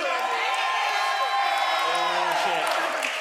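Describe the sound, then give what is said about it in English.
An audience cheering and shouting at a live show at DragonCon 2019: a dense, loud, steady wash of many voices whooping and yelling together throughout. “Let's cheer for Glane or the other one, Deep Home. Yeah, so Deep Home first. Deep Home! Just like. Now. Glane. For Glane.”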